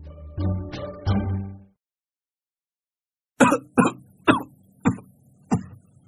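Hacking cough of an elderly man in a Hai Phong slum: a few throaty, voiced bursts, a silent pause, then five sharp, harsh coughs spaced roughly half a second apart.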